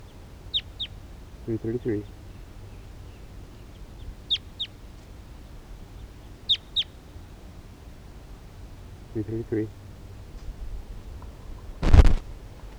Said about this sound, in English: wild bird in the distance.